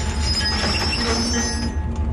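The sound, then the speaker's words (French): A passenger train departs along the railway from Chihuahua toward the Pacific coast, a loud steady rolling rumble with thin, high wheel squeals drawn out above it and no voices. “c'est de prendre le train qui va de Chihuahua, la capitale de l'État, jusqu'à la côte du Pacifique. Il est 7h30 du matin sur le quai de Chihuahua, beaucoup de monde. Et très vite, l'aventure commence dès le premier kilomètre.”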